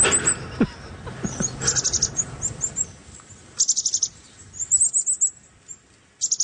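Bird calls played back from a phone app: several short bursts of rapid, high chirping, separated by gaps, with a low rumble under the first half that fades away.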